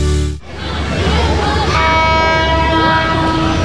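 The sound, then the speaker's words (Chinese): Train passing through a tunnel: a loud, steady rumble begins abruptly, and sustained horn-like tones join midway over the roar. “这样的声音在现在的圣心车站已经听不见，好多从前的画面像是随着列车经过隧道开进了记忆里。”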